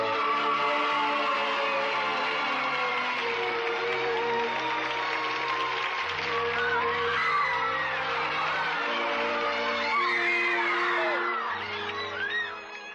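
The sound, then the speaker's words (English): A radio studio audience cheering, whooping and applauding wildly, a dense, loud, continuous roar of many voices that holds throughout and eases slightly at the end. “Now, the audience was going crazy there.”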